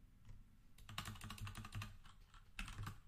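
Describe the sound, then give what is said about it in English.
Quiet, rapid typing on a computer keyboard: many keystrokes patter in an uneven stream, with a brief pause before a final flurry. “Let me just type in Lubbock to Dallas.”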